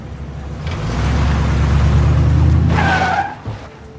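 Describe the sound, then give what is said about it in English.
A car being driven off: the engine revs up into a low, steady drone, then the tyres squeal and skid in a sharp, high streak near the end before the sound drops away, with no talking. “Okay, foot on the brake, put it in drive. Check your blind spots and gently hit the gas.”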